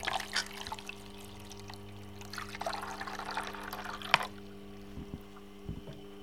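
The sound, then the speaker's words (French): Water is trickled onto a forged blade during sharpening, giving faint splashing and dribbling over a steady low hum, with a sharp click partway through and a couple of soft knocks near the end. “là, je mets un peu d'eau parce que quand on affûte, en fait, il faut être très vigilant à la chaleur.”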